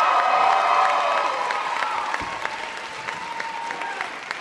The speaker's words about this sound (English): So you can hear them. More than 900 people have crowded into Prochnow Auditorium to hear the Meteorite Men and the CEO of the Planetary Society, my boss, Bill Nye, the science guy.